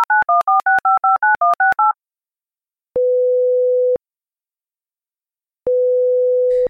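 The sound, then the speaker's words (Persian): Telephone tones as a call is placed: a quick run of touch-tone dialing beeps, then two long, steady ringing tones separated by a silent pause. “میریم که با مهداد تماس رو برقرار بکنیم و جزئیات ماجرا رو از خود مهداد بشنویم.”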